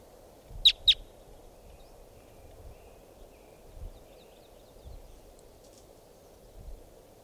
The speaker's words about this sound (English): More wild birds coming in. Right here at 5:45.